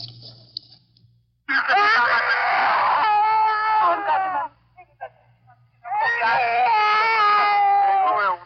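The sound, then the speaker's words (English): A child wailing in wartime Korea: two long, loud, harmonic-rich crying bursts with wavering pitch, separated by a short pause. “The wailing of a child in Korea.”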